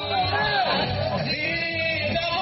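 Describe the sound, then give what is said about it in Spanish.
Loud crowd shouting from thousands of marchers at an anti-abortion national march along a wide avenue of government ministries. Many overlapping voices chant and yell continuously, forming a dense, steady roar with no pause. “Ese fue el grito repetido por miles de personas que participaron este martes en la Marcha Nacional por la Vida.”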